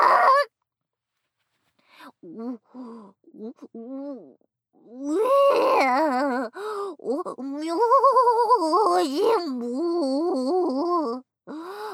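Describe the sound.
A dog being told to stay out gives drawn-out, wavering cries: a few short whines first, then long, loud, warbling howls that rise and fall.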